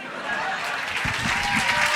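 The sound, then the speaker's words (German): Audience applause breaks out at the end of a stage performance, a dense wash of clapping with voices heard over it. “Dein Applaus.”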